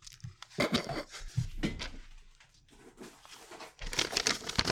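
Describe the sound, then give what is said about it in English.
Wrapping paper crinkles and tears as a wrapped gift is opened, with irregular bursts of ripping and rustling. The noise quiets to a soft lull midway, then returns in a louder flurry of crackling paper. “There we go. I'm unwrapping it.”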